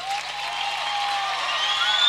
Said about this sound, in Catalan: Aplaudiment a la banda també,